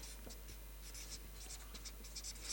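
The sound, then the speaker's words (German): Writing on a board: a faint series of quick, scratchy strokes in an irregular rhythm, with no other sound around them. “Ich schreibe das mal hier oben. Missgünstiger Aufpasser.”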